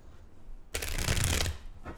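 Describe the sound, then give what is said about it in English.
Tarot cards being shuffled in one brisk riffle lasting under a second, loud against an otherwise quiet background. “All right, let's look at some tarot cards.”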